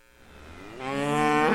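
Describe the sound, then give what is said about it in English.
A dairy cow on the Riverview Dairy Farm in Chippewa County gives one long, low moo that swells in strength and holds loud to the end. “former Lieutenant Governor Mandela Barnes was getting a tour of the Riverview Dairy Farm in Chippewa County. Co-owner Matthew Holub told Barnes his family has been milking cows there since 1918.”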